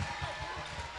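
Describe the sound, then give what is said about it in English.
A basketball rolls into a courtside microphone during a game, making soft, low, uneven thumps and rumbling at a quiet level, with voices underneath. “As that sound you hear is the ball rolling into our courtside microphone.”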